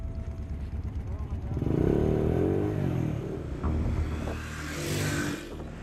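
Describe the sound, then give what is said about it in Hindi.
A motorcycle ridden at night near the border with Pakistan's Sindh province: a droning engine with shifting harmonics that swells and eases, with voices talking over it. “दिन को ये motorcycle चलती नहीं है tyre इसका कमजोर हो जाते हैं धूप पे.”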